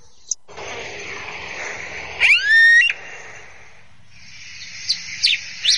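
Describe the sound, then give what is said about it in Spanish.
Cacholote bird calling: a short burst of harsh, rising notes stands out over a steady background hiss, followed later by a few brief, sharp chirps. “Cachalote. Estamos escuchando un cachalote.”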